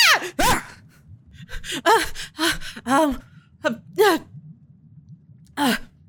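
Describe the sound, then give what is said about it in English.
Deep, gasping breaths from a woman rolling over and opening her eyes: a series of breathy, partly voiced inhalations and sighs in uneven bursts, with no speech. “She rolls over a little bit, takes a deep breath, opens her eyes.”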